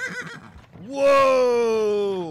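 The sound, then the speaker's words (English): A horse whinnies: one loud, sustained neigh lasting over a second that holds its pitch and then tapers off, after a stretch of quieter mixed sound. “Whoa! Wasn't talking to you horses.”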